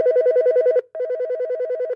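A telephone rings in two long electronic trilling bursts separated by a brief gap. The rings are loud and steady, with no voices.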